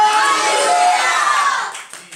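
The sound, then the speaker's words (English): A worshipping audience claps and shouts praise during a church sermon: a dense, steady wash of many voices and hands that holds loud, then thins and fades toward the end. “Come on, can we give a clap? Can you shout hallelujah?”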